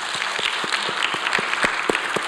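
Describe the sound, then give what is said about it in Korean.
A church audience claps together in a steady rhythm, with many sharp, evenly spaced claps standing out over a softer layer of scattered applause. “우리 한번 박수합시다.”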